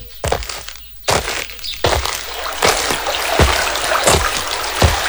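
Water splashes again and again as someone washes their body: a series of bright, wet bursts at a fairly steady rhythm, each one sharp and short, with no talk.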